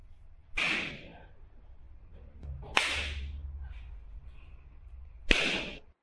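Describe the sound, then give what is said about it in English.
A hand spanks bare buttocks in three sharp, loud slaps, spaced roughly two and a half seconds apart, each with a quick bright crack and short decay over a quiet background. “All right, you're going to get spanked.”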